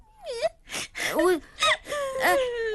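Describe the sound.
A child crying in loud, wavering wails that rise and fall in pitch, broken by a few sharp gasping breaths between the sobs.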